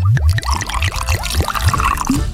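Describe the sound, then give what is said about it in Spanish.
A drink is poured over ice into a glass, a loud splashing stream with a rhythmic glugging gurgle repeating several times a second, continuing throughout. “Eso, otro poquito que quede bien helado. Listo, ahora sí, sirva el chorration.”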